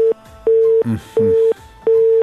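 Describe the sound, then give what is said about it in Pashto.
Telephone busy signal after a call is cut off: evenly spaced, steady mid-pitched beeps that repeat with short pauses, and a brief voice is heard between two of them. “تماس مو سره قطع شو”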